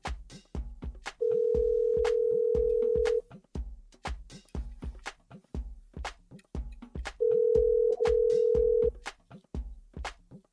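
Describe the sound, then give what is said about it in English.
Outgoing telephone ringing tone while calling a radio caller: two long, steady buzzing rings, the second briefly broken, over a steady rhythmic music beat. “we got a couple of other callers we're going to call in. I'm not sure. Oh, this is David. All right, so got him. Here we go.”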